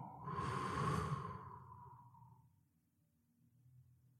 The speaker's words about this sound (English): Let's take a few deep breaths here, breathing in, holding at the top, dropping your shoulders and letting it all go.